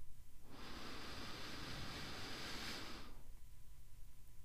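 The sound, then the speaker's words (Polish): A slow, deep breath drawn in through the nose during a guided relaxation exercise: one steady, airy hiss lasting about two and a half seconds, starting and stopping fairly abruptly, with no talking. “A teraz razem ze mną weź pełen, spokojny wdech przez nos.”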